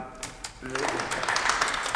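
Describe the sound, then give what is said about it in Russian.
Bank employees applaud to greet Shipuchin: a brief, dense patter of clapping builds up after a short opening and continues steadily to the end, with a voice briefly heard near the start. “Это аплодисменты, которыми служащие банка приветствуют Шипучина.”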